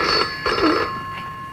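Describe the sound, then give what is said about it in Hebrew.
A red rotary dial telephone rings with a bright, metallic bell tone in a few short bursts. “טלפון חוגה, אני מזהה את הטלפון חוגה. כן, הטלפון האדום דווקא.”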